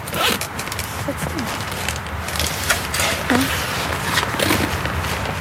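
A backpack zipper is pulled open while someone sorts through clothes and belongings. Its scratchy, ratcheting rasp runs steadily for several seconds, mixed with small clicks and rustles, and no one speaks.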